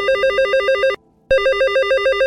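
A telephone rings in two loud trilling bursts, a rapidly warbling electronic tone that cuts off for a brief silent gap before starting again.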